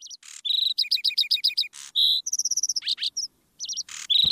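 Skylark song: rapid bursts of high, bright chirps and repeated trilled notes, clear and loud, alone.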